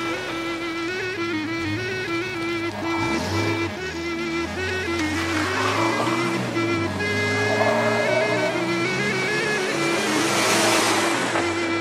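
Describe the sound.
Car engine revving as the driver accelerates, a loud, continuous droning roar whose pitch shifts up and down throughout.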